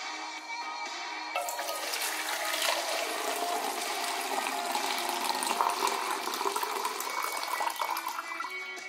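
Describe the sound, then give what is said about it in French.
Water poured from one container into another in a 1952 experimental music piece. A faint, quiet opening gives way to a steady, continuous splashing stream that runs to the end with no talk. “Comme dans la pièce Water Music de 1952, où on entend par exemple de l'eau versée d'un récipient à un autre”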